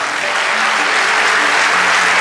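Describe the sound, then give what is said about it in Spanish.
A church audience applauds during a Spanish-language worship service. The applause is dense, loud and steady throughout, with no voices standing out. “Vamos, dale ese aplauso”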